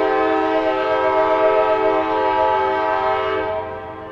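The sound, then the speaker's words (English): A train passing through a university campus in Cambridge, Massachusetts sounds a long, loud, steady horn with a rich harmonic tone, holding throughout before easing slightly at the end over a low rumble. “That's the train that goes through the MIT campus. It goes right by my house.”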